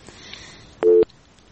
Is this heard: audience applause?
no